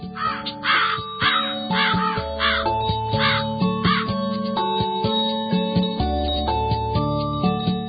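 A magpie calls alone in a rapid run of many harsh, raspy caws that cluster early, then come as scattered, more spaced calls.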